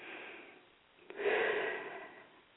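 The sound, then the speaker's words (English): A person takes a deep breath during a spiritual cleansing session: a soft airy sound at first, then one long, breathy rush that swells and slowly fades. “All right, you take a deep breath.”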